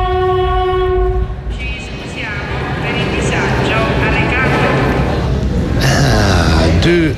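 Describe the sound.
Train at a railway station in Bologna: loud, constant rail rumble opens with a sustained multi-note horn, then squealing, wavering metallic tones run over the rumble, with a bright hiss toward the end.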